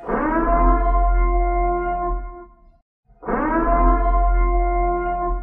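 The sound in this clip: Siren sound effect from a horror film, two long, deep wailing blasts rich in overtones, separated by a brief silence around the middle, loud and mournful with no voices.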